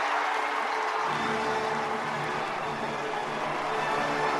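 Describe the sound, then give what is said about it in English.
A Trafalgar Square crowd celebrating London winning the 2012 Summer Olympics makes a faint, continuous roar of cheering and noise that thickens slightly after the first second and then stays steady. “And that's Trafalgar Square on July 6, 2005, when London was awarded the 2012 Summer Olympics.”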